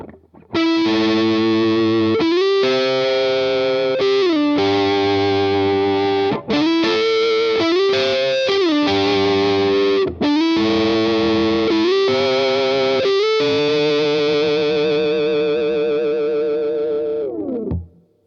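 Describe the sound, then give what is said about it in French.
A fuzz-distorted guitar has its tone knob drawing out rich extra harmonics while two notes are mixed together. It makes a thick, loud, buzzing sustained tone broken by brief gaps, and ends in a downward slide. “le potard de tonalité, plutôt que d'enlever du son, va rajouter des harmoniques hyper intéressantes. Ce qui marche aussi bien avec une fuzz et ce qui marche encore plus quand vous mélangez deux notes.”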